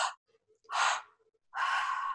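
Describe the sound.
Breaths of a breathing exercise done with one hand on the lower belly and one on the heart: two short, sharp inhales followed by a longer, drawn-out exhale, each breath separated by a brief silence.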